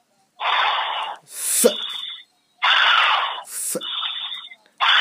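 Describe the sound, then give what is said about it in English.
Heavy breathing in and out during a prayer for healing, with loud rushing breaths in a steady alternating rhythm: about four long breaths separated by short gaps, and the start of another at the end. “Just close your eyes. In the name of Lord. Jesus Christ. Breathe in and out 5 times heavily.”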